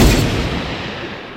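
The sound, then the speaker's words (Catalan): Gunfire from soldiers' firing squad during an execution by Spanish troops: a single loud burst at the start that fades into a rumbling, reverberant decay. “Els soldats obren foc. La nostra protagonista ha mort executada per les tropes espanyoles.”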